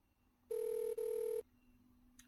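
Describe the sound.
A telephone rings with two steady electronic tone bursts, each just under half a second long, separated by a brief gap. The ring sounds alone against a quiet background, with no talk.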